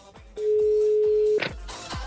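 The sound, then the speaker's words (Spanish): A telephone call being placed, heard as a single steady mid-pitched tone lasting about a second, over a thumping bass beat of music. “en Vibra, por eso le estamos marcando, para que nos instruya”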